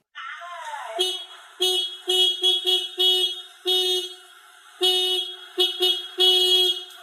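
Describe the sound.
A motorbike horn honks in a series of short, bright, buzzy blasts with uneven gaps, loud and alone without talk.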